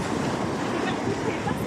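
Sea water washes over feet at a shore in Zanzibar, a dense, steady rushing hiss that holds at an even loudness without clear breaks.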